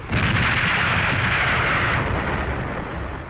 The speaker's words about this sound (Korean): 강영천은 뒤로 물러서다가 쉭 하는 이상스러운 소리를 듣고 땅에 납작 엎드렸다. 포탄이 그의 곁에 날아와서 터졌다.